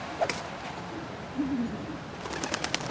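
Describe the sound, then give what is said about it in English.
A pigeon gives a single soft, low coo outside an apartment block. The call is brief and faint against a quiet background. “a bird craps on him.”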